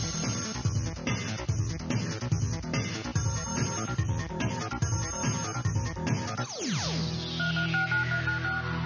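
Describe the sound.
Telephone dialing tones woven into an energetic production music bed, with pulsing rhythmic beeps over a driving beat, then a falling electronic sweep that settles into sustained tones.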